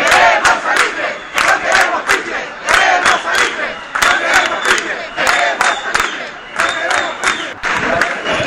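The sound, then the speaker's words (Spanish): A protest crowd on Tenerife chants against oil drilling: loud, rhythmic shouted bursts repeat steadily with sharp accented peaks, and many voices merge into one continuous, energetic roar. “nos ofrecen los sonidos de la protesta”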